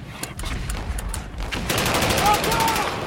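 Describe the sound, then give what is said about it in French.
German machine guns open fire in a 1917 World War I attack, rapid, evenly spaced shots rattling over a rumbling background, becoming more regular and sustained in the second half. “C'est les mitrailleuses allemandes, ils lancent l'attaque.”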